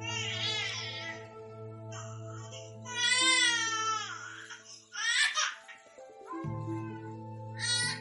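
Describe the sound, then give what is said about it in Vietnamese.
A baby cries in a few wailing, high-pitched bursts separated by short pauses, over steady background music. “con nó khóc quá.”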